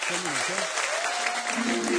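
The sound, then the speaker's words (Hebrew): An audience applauds musicians on stage at a singalong concert with dense, steady clapping, and a voice is heard over it. “כמו שאתם רואים פה המנגנים על הבמה, עשו להם הרבה הרבה כפיים, מגיע להם.”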